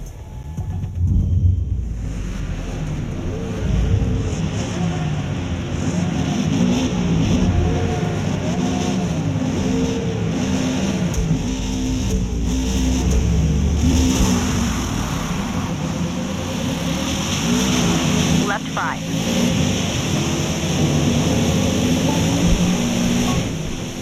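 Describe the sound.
Racing car engines roar through a circuit race in the video game Forza Motorsport. A continuous loud engine drone keeps climbing and dropping in pitch as the cars accelerate and shift, with no talk.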